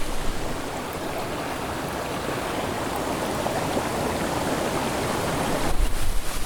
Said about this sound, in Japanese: ちょっとじゃあ水の音取ってみたいと思います。すごい水がすごい綺麗な水が流れてきてますね。